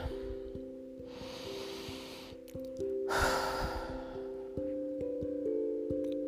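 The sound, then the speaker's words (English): Someone takes a slow deep breath, seated, in a relaxation exercise. A long airy inhale is followed by a stronger breathy exhale, over a soft sustained musical tone. “Take a seat. Take a deep breath.”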